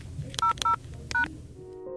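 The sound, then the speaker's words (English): Telephone keypad dialing tones, three short, clean electronic beeps with gaps between them. The first two are evenly spaced and the third comes after a longer pause, over faint background noise. “For the Art Phone, press 200 and a pound sign.”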